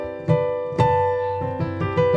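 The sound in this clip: A thirteenth chord, a dense stacked harmony of thirds, is struck several times in sequence, each attack ringing on with sustained tones.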